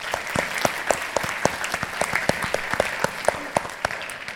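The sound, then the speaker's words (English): An audience at an evening program applauds council members and trustees with many sharp, overlapping hand claps in a steady, even roar that stays at a constant level with no speech. “So let's give all of them a big hand.”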